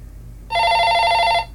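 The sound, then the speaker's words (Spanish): A telephone rings on a bedside table: a single loud, bright electronic trill, steady for about a second before it cuts off, with nothing else heard. “El teléfono de su mesita de noche sonó, provocando que se despertara con una sacudida.”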